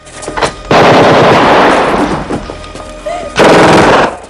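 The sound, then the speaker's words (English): Loud gunfire in a film shootout: a brief, quieter burst opens, then two long, roaring stretches of rapid shots crash in, separated by a short lull. “Kersey sees Nick's reflection in a mirror, turns, and guns him down.”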